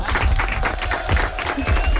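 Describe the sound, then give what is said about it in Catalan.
Applause from a group, a loud, continuous patter of hand claps over a low rumble, holding steady from start to finish. “Molt bé, aplaudiments.”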